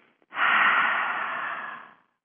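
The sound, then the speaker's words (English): A single long, deep breath, a steady airy rush of air lasting under two seconds, heard alone and fading out at the end. “let's take one deep breath, call in the universal lights, and breathe them out to one another into the Radiance by Design community.”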